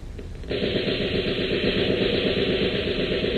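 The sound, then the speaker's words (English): Rapid gunfire in a radio drama as shots rip into a sofa pillow. After a quiet moment it breaks into a dense, continuous burst that stays at full loudness to the end, with no talk. “Too bad, Regan. You just shot the stuffing out of one of your sofa pillows.”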